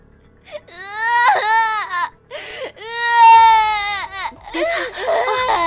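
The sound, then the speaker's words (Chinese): A young boy sits on the ground crying loudly, his high, wailing sobs breaking into several long bursts with short catches of breath between them. “旁边有一个男童正坐在地上大哭”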